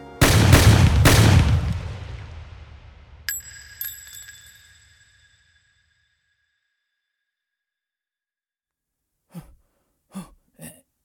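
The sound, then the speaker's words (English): Three loud gunshots in quick succession, each a heavy blast trailing off into a long, fading rumble. A couple of sharp metallic rings follow, and then near silence. “Oh, you shot the interns.”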